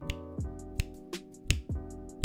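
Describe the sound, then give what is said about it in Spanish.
Finger snaps accompany a song about Lake Atitlán: several sharp, crisp snaps land in a steady rhythm over sustained musical tones. “quiero que me acompañes con chasquidos, así con los dedos.”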